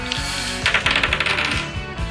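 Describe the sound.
Dice clatter as they are rolled for a prize draw, a quick run of many small, bright clicks and rattles heard alone, without talk.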